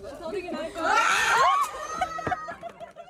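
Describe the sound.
A woman's loud, high-pitched shriek comes from a video being played, rising above the voices around it, and is followed by a group of people laughing and chattering.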